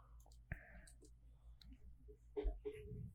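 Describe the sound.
A computer mouse clicks the share button during a screen-sharing video call: one sharp, distinct click stands out early, then faint, murmuring voices come in near the end.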